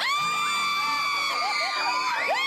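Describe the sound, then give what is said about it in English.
Many children scream in fright, high-pitched overlapping shrieks and wails that hold a steady loud level throughout. “Then you hear what it sounds like. Legitimate screams of children who are absolutely frightened.”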